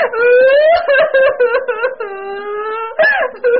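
A woman crying and sobbing in distress, with long wavering wailing moans broken by a few short catches of breath. The crying is loud and heard alone.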